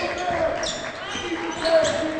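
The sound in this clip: Basketball dribbled on a court during a high school girls' game, repeated dull thuds beneath continuous arena noise and a commentator's voice.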